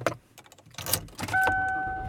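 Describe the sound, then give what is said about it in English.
A car drives away from home: a few soft clunks and rustles, then a steady low hum that carries a sustained high tone to the end. “And I am driving away from home.”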